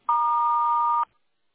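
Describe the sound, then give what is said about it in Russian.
A single steady electronic beep from an answering machine, clean and alone, lasting about a second before silence. “Если хотите оставить ему голосовое сообщение, пожалуйста, говорите после звукового сигнала.”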